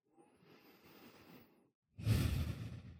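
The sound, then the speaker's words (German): Deep breathing in and out: a soft, airy inhale lasting over a second, a short pause, then a louder, fuller exhale that gradually fades. “Dann atme nochmal tiefer ein und aus.”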